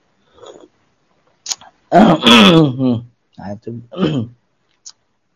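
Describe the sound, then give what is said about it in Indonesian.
A man clears his throat in a few short, rough bursts, with one longer voiced stretch in the middle and brief breathy sounds around it. No words are spoken. “itu berdehem”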